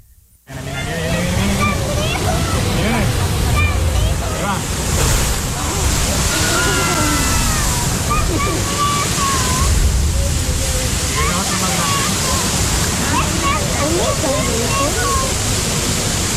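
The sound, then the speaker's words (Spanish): Sea water surges and sprays at La Bufadora blowhole, a continuous loud rushing roar that runs from just after the start to the end, with people talking over it. “Si vienen cuando hace mucho viento, como salen disparados y se hacen gotitas, te moja. Sí, puede pasar. Vengan a la bufadora.”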